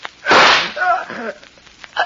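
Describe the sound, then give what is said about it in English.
A single loud pistol shot: a sharp, broad crack that rings for about half a second, then fades into quieter sounds. “You shot me. The gun wasn't empty.”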